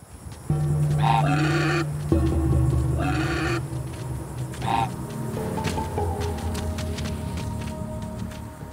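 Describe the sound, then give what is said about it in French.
An imagined call of the Oviraptor, a dinosaur whose name means egg thief: three bleating, goat-like cries spaced a couple of seconds apart, rising over a low, steady drone. “Il s'agit de l'Oviraptor.”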